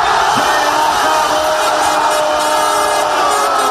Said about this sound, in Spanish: lo escucharemos, lo podremos escuchar en las calles de Santiago este domingo con cada gol de España.